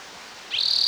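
A bird call: a high, rapid buzzing trill that starts abruptly partway through and holds a bright, steady pitch until the end.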